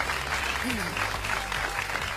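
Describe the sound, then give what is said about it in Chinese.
Audience applause for a company's users, a dense, steady patter of clapping that runs evenly through the whole stretch, with a faint voice briefly audible beneath it. “我觉得这里应该给我们的用户一掌声。”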